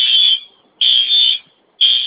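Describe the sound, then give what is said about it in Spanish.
A store's alarm at a shop branch in Metepec blares in loud, high-pitched electronic tones: three long bursts separated by short silent gaps, with no voices. “otra vez me activó la alarma de aquí de Italiano y Metepec”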